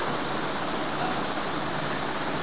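Water flows constantly down from a mountain, heard as a faint, steady rushing hiss that stays even throughout.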